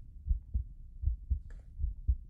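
Heartbeat: soft, low thuds in a steady rhythm, forming three clear double beats, each a paired lub-dub, faint and alone with no other sound.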